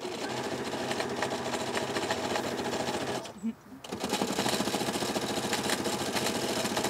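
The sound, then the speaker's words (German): Sewing machine stitching a pennant bunting, a loud, steady mechanical whir with rapid needle rhythm that stops briefly midway, then resumes just as strongly. “Ich nähe jetzt hier gerade eine Wimpelkette.”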